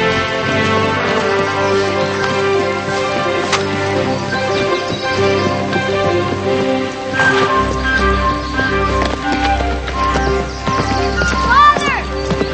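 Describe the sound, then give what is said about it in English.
Hoofbeats of a post rider's horse riding away along a road, a rhythmic clip-clop running under steady music for the whole stretch. “The post rider rides away and the two younger boys run down the road after him.”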